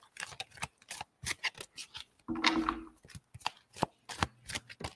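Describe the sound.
Oracle cards being shuffled by hand: many rapid, crisp riffling and slapping bursts in an uneven rhythm, with one longer, fuller riffle in the middle, all fairly faint and with no talk.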